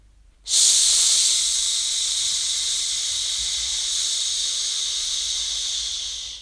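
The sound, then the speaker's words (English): A long forced exhale pushed out through the mouth without voice makes a steady, breathy hiss. It starts abruptly and holds for about six seconds, fading slightly toward the end. “Number one, push out the air for as long as you can until you don't have any more air.”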